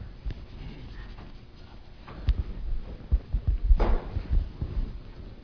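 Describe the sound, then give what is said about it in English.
Writing being erased from a board: a few soft, scratchy rubbing strokes, faint at first and then more frequent. “So I'm going to erase Mark 16 here.”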